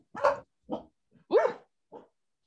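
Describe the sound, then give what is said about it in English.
A guarding dog barks at an intruder: four short, separate barks within about two seconds, the third louder and more drawn-out, fairly faint overall and with no one talking. “I'm having intruder. Dog issues.”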